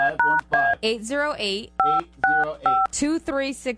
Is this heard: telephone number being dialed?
yes

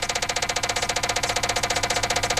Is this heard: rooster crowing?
no

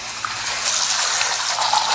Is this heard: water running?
yes

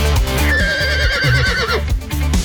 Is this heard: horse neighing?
yes

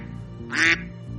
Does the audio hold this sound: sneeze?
no

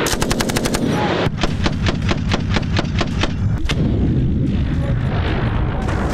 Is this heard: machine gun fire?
yes

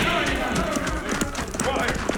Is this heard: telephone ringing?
no

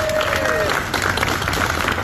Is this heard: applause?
yes

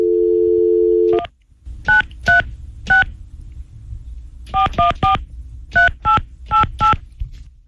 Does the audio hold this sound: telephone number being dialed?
yes

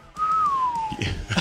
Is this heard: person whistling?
yes

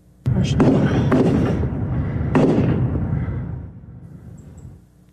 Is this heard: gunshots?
yes

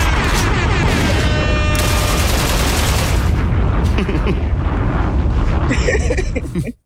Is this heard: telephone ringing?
no

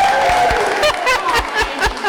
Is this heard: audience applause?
yes

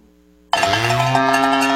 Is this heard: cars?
no

